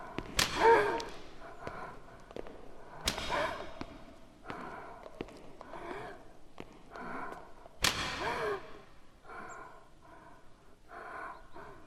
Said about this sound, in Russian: Слышен звук плетки.